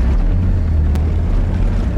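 A car drives over rough, steep terrain, its engine a loud, steady low rumble mixed with wind buffeting, continuous throughout with no talk.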